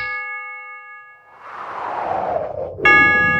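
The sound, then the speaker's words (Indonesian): Clock chime marking three in the afternoon: a fading ringing tone at the start, a soft noisy swell, then one bright struck chime with a clear ringing tone at the end. “Setiap kali engkau mendengar bunyi jam yang menunjukkan pukul 3 sore”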